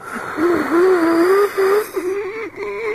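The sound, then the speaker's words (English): A 32-year-old non-smoking, fairly fit man wheezing: a drawn-out whistling tone wavers up and down through the breath, loud and alone, with brief breaks between pulls of air. “Oh, can you hear me wheezing? Let's have everyone quiet. Here's a big wheeze. Quiet. Shh, here we go. That's a natural wheeze.”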